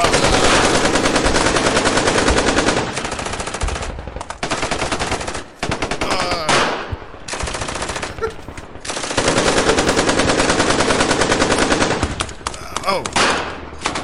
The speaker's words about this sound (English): Now you get executed for making a mistake. No. So, firing squad.